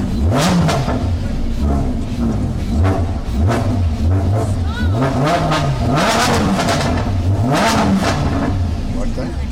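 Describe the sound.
A Lamborghini engine revs hard and loud. Its pitch climbs and drops in many repeated swells, with sharp throttle blips between the longer roars.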